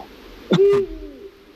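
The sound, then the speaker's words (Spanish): A Eurasian eagle-owl gives a single deep, low hoot, short and loud against a quiet background. “Estamos escuchando un búho real,”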